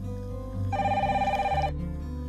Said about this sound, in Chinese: 现在请导播接入我们的听众热线，看看会是电话那头的您打来的吗？